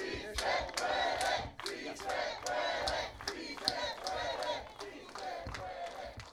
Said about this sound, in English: We are listening to the kickoff of the march to Sacramento